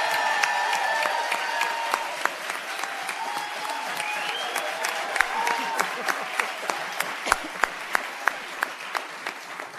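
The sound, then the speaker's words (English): A live audience applauding as a guest is welcomed onto a sold-out panel program, dense, steady clapping that carries on loudly throughout, with sharper individual claps standing out near the end. “we do this panel every single solitary day, but it's a lot nicer when you have people cheering for you.”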